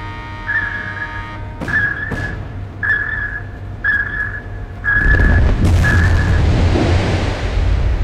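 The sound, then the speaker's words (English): Depth charges are fired and explode from a warship attacking a submarine. A high whistling tone sounds six times in a steady rhythm, then a loud, sustained, low rumbling roar takes over and continues to the end. “Stand by depth charges. She's not moving very fast, sir. Must have hit her the first time. Just below, sir. Fire depth charges.”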